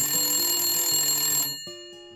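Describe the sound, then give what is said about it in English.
A telephone rings in an insurance businesswoman's office with a steady, high electronic trill that cuts off partway through. A few fainter tones follow. “The phone is ringing”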